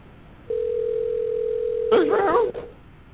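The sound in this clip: A telephone call goes unanswered: a steady, unbroken ringing tone holds for over a second, then a voice speaks over its end.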